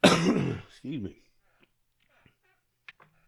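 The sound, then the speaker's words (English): A person has a coughing fit: a harsh, throaty burst, then a second shorter, rougher cough, followed by near silence with only faint small noises. “excuse me. I had to pause it for a second. Just had a cough attack.”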